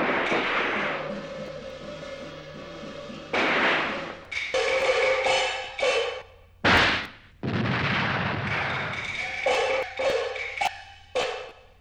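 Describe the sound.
Artillery fire booms in a wartime scene, many heavy bursts with abrupt onsets and rumbling decays, some close together and others separated by short gaps.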